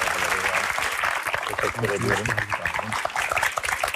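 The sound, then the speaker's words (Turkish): Audience applause as a guest is welcomed onto a stage, a dense patter of claps running throughout while a voice speaks over it. “Sevgili sağlıklı hocayı hemen bir sahneye alalım. Alkışlarınızla.”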